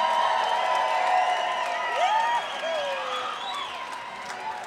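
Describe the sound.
An audience applauds and cheers to welcome a banjo player on stage. Steady, loud clapping mixes with whoops and whistles, then tapers off gradually near the end.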